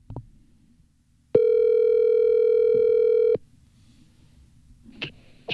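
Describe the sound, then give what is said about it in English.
Telephone dial tone from an accidental butt dial: one steady, loud tone that holds for about two seconds, then cuts off, leaving faint low noise and a few short sounds. “No, no. Butt dial. That was not the correct number.”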